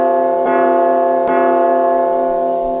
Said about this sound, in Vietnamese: chẳng mấy chốc đã có tiếng chuông vang lên liên hồi